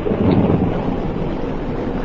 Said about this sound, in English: A storm was blowing in over Iceland.